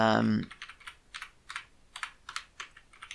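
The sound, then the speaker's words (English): Typing on a computer keyboard while entering Ruby code: after a brief voice at the start, many light, irregular keystroke clicks tap out in quick bursts, moderately loud and alone. “So I'm going to type in”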